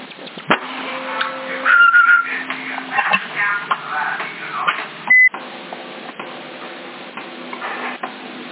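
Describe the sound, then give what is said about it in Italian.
A short, loud electronic beep sent by an operator over a CB radio channel in Sassari stands out once against steady static hiss and faint tones. “Avanti il bip, chi è?”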